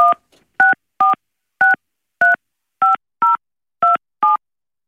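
Telephone keypad tones entering a number: nine short, evenly spaced beeps of varying pitch pairs, loud and clean with silence between each press and no talking.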